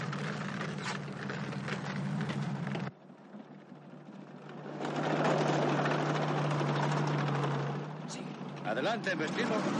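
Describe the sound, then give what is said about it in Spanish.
A German tank drives through a property and wrecks it in a 1970 war film, its heavy engine giving a steady low drone with louder grinding, crashing stretches, while a narrator talks over it. “Sigue al tanque alemán atravesando una propiedad, la cual destrozan al paso de la gran maquinaria.”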